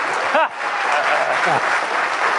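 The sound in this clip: An audience at a Ghostbusters event claps in loud, steady applause throughout, with a couple of cheering voices briefly rising above the dense clatter of hands.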